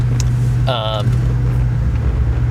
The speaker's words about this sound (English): Oh, that's wind. I gotta roll up this window.